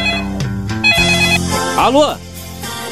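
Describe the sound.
A telephone rings under overlapping voices: a bright, warbling tonal ring mixed with talk across the short stretch.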